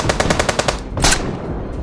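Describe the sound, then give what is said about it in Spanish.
Submachine gun fire from armed men ambushing cars on a road: a rapid, evenly spaced burst of sharp shots followed by a louder, broad blast that quickly fades. “A la altura de Ispaster, provincia de Vizcaya, un grupo de hombres armados con subfusiles y granadas emergió de la nada y abrió fuego contra los coches.”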